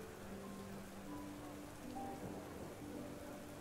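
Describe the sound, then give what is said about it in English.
Rain falls steadily, making a soft, even hiss with scattered patter that stays constant and faint throughout, with no voices. “Your mind wanders off within the sound of the rain,”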